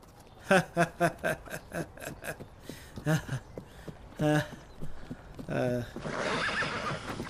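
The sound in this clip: Rhythmic clip-clopping hoofbeats of a running horse with a loose shoe, with a horse whinnying amid the loud repeated hoof strikes while people talk and call out over them.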